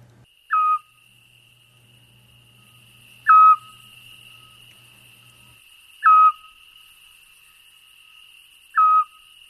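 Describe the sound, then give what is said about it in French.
Four short, evenly spaced whistled notes of a Eurasian scops owl, a migratory owl heard through summer around Embrun. Each note is a clear, mid-pitched hoot, repeated about every three seconds over a thin, steady high background tone. “Effectivement, ce cri-là, on le connaît. Hein. En tout cas, à Ambrun, peut-être ailleurs aussi ? Dans d'autres villages aussi, oui, à l'Argentière aussi. Et c'est un hibou petit-duc qui est migrateur et qui revient chez nous qu'à partir du mois de mai.”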